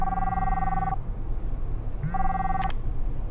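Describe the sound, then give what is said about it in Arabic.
A phone rings with an incoming call. Two electronic ring bursts are heard, the first about a second long and the second shorter after a pause, both over a steady background hum. “زميلي جالس اتصل”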